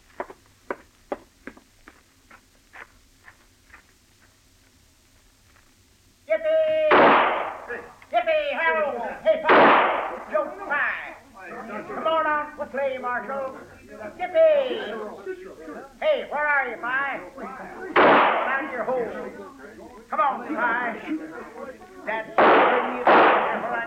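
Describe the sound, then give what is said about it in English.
Gunshots fired during a tense scene, heard as a few sharp, loud bursts scattered among steady talking voices, after a faint run of quick ticks at the start. “Okay, get up there and do his shooting for him, Chester.”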